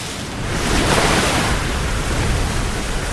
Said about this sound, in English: Water slamming against a seafront and rising high into the air.